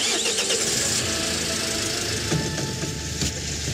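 A car engine struggles and fails with a broken gearbox, giving a continuous loud, rough rumble with uneven knocking and a few harsher surges toward the end.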